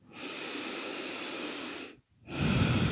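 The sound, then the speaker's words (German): Deep breathing in and out during a guided breathing exercise: two long, airy breaths separated by a brief silent pause. Each is steady and fairly loud, and the second is slightly stronger and fuller. “Und dann atme tiefer ein und aus.”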